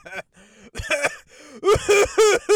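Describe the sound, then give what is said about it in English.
Someone clears their throat in a few short, raspy bursts mixed with brief voiced vocal warm-up sounds, uneven in rhythm and moderately loud. “Now that my throat is clear”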